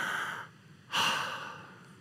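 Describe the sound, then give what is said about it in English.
A deep breath, heard as a soft airy rush of air that pauses briefly and then comes again as a longer, stronger breath before fading away. No one speaks over it. “Just take a breath.”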